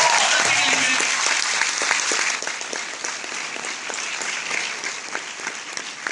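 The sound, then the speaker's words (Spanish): An audience at a motivational talk bursts into applause. The clapping is loud and dense at first, then thins after a couple of seconds into quieter, looser clapping with distinct individual claps toward the end. “un aplauso para ustedes”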